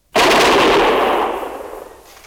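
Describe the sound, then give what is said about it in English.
A volley of gunfire from soldiers firing together on command: one loud, abrupt blast that bursts out at once and then rolls away in a long, fading rumble. “Ready? Fire! Hit him again, Sergeant. Ready? Fire!”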